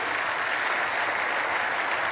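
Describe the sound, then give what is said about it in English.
An audience claps together to give thanks to God during a sermon. The sound is a full, even wash of many hands, sustained at a constant level throughout. “That calls for a clapping. Everybody should thank God for that.”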